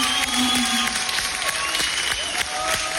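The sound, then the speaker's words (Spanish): A crowd applauds a poet, graphic designer and radio presenter as he is introduced, producing a loud, steady wash of clapping that holds without a break. “Un aplauso para nuestro”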